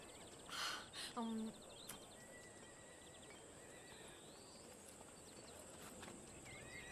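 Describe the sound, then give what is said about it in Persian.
A ridden horse moves through the scene with a soft clip-clop of hooves and a whinny near the start, while birds chirp faintly over a constant outdoor hiss. “یه سوار داره میاد. کیه؟ آشنا نیست.”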